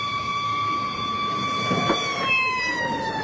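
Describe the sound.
A fire engine siren wails as the truck arrives, its sustained tones holding steady at a moderate volume over a low background rumble.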